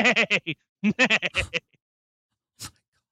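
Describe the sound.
A voice imitates a horse neigh with a rapid series of warbling, bleat-like vocal pulses in two bursts, followed after a pause by one short, breathy trailing sound.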